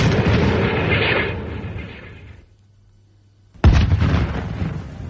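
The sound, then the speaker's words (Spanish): An artillery gun fires with a sudden heavy blast that swells into a loud, sustained roar. Before it, a long rumbling roar fades away into a near-silent pause with a faint low hum. “¡Variación a 30 metros! ¡30 metros, listo, señor! ¡Proyección 27 grados, carguen! ¡27 grados, listo! ¡Fuego!”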